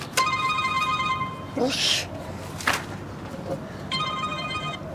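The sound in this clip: A telephone rings in two bursts of a steady, high, warbling bell tone, with a few brief noises between the rings.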